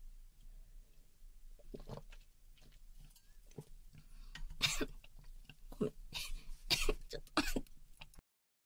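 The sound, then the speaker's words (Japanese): Coughing and throat clearing after water went down the windpipe: several harsh, raspy bursts, starting faint and growing louder and more forceful toward the end, then stopping abruptly. “ごめん、気管に入っちゃった水飲んだら。”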